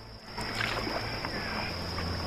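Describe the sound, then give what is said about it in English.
An elegant pleasure boat moves along a tranquil river in an ancient Egyptian setting, heard as a soft, continuous wash of water against the hull with a thin, steady high tone above it. “An elegant pleasure boat sailing on a tranquil river.”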